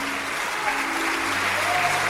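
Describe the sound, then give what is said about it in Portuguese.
A church audience applauds during a service, a steady, even wash of clapping that holds at a constant level for the whole two seconds. “Vamos aplaudir mais o Senhor Jesus por cada vida que está chegando.”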